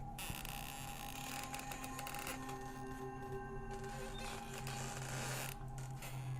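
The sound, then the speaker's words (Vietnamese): Old temple doors creak slowly open, a faint, drawn-out creaking with sustained grinding tones that carries on steadily for several seconds, without talk. “Ngay lúc ấy, hai cánh cửa cũ kỹ của chùa đã mở toang, từ từ kèm theo những âm thanh cọt cà cọt kẹt đến đáng sợ, giận người, như là sẵn sàng hù dọa bất kỳ ai.”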